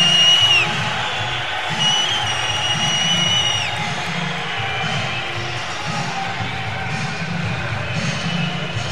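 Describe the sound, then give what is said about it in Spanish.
A crowd at a technology festival gives a big ovation after a welcome message. A steady roar of cheering and clapping continues throughout, with a few high whistles cutting through near the start. “pues ahí está la ovación espectacular y este Welcome to Campus Party”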